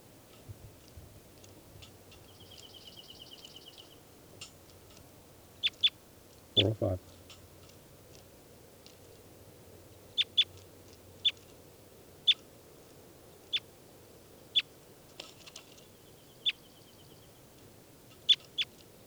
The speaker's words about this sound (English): Start recording now. I'm going to be handling bird 405.